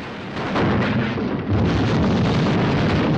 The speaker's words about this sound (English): leading seaman Frank and an officer are thrown off their feet by a violent explosion